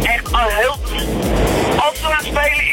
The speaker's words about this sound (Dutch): In de auto. Ik hoor dat je in een windtunnel zit